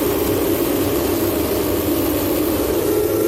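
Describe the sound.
Formula 1 cars at a race start on the grid give a loud, steady engine roar that fills the whole clip without a break, with no voices heard.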